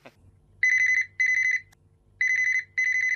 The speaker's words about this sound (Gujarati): તમારો ફોન.